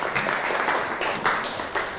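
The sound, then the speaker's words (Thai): Students applauding themselves: a steady, dense wash of group clapping that runs through the whole stretch. “ทุกกลุ่มเก่งมากปรบมือให้ตัวเองหน่อย”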